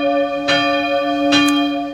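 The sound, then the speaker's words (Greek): Church bells ring loudly and alone in steady, sustained overlapping tones, with fresh strikes renewing the peal twice. “Δηλαδή τέτοιες καμπάνες.”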